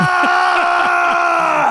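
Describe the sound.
A voice imitates a painter screaming as he dips his brush in yellow paint and presses it onto the canvas. It is one sustained, strained shout lasting nearly two seconds, loud and steady.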